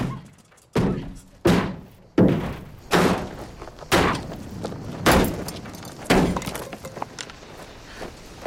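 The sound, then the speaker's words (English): A hammer swung with both hands strikes a car trunk lid in a steady series of heavy, loud metallic thuds. Each blow lands roughly once a second and decays briefly before the next. “She kicks the car and brings the hammer down with both hands on the trunk lid.”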